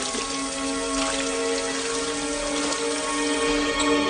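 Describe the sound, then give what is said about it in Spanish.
Water runs steadily from a bathroom sink tap while someone washes their face, a continuous even splashing hiss at moderate volume with no breaks. “Abre el grifo del lavabo y se lava la cara.”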